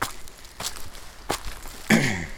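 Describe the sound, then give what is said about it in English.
Footsteps crunch through snow on an alpine route in warm conditions, the walker wearing light mountain running shoes; a few soft, evenly spaced steps sound alone. “you can say almost everything you need to know about snow conditions just by the sound. See, that's the sound. You can tell I just have light mountain runners on.”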